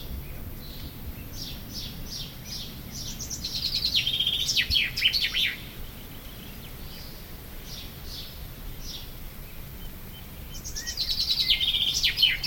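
A bird chirps in a cool, almost damp space where bits of metal are stored. Rapid high-pitched tweets come in two louder bursts over a steady low background noise, with quieter calls in between.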